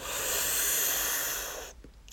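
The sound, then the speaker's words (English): A person sharply sucks in breath: one long hissing inhale that holds for about a second and a half, then cuts off abruptly into near silence. “if you're going to keep making that sucking in of breath sound, then you need to stop”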